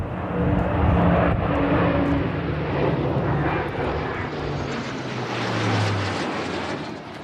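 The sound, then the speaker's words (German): An air force aircraft flying over a ceremony at a barracks in Roth produces a loud, sustained engine roar. It holds steady for several seconds, then eases slightly toward the end, with no voices heard. “Die sind jetzt heute Piloten bei der Luftwaffe und die sind extra aus Neuburg an der Donau einmal über diese Zeremonie über die Kaserne in Roth geflogen. Und das war ganz schön laut.”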